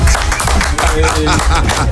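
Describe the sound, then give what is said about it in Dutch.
Audience applause welcoming a guest onto a stage: loud, busy clapping from many hands, sharp individual claps blending into a continuous patter. “applaus voor Frank.”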